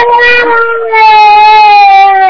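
A person crying over a phone line, a loud, sustained high-pitched wail that dips briefly midway and then carries on steadily.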